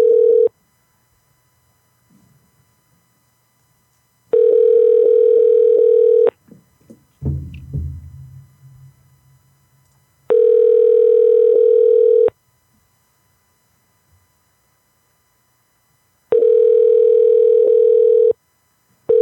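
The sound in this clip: Telephone tone heard while placing a call: three steady two-second tones separated by long silent gaps, with a fourth beginning at the very end and a brief rustling noise in one gap.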